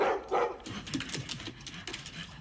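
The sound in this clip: A dog gives quiet, short barks and whimpers. A couple of brief yips come first, then softer, thinner whines follow at low volume.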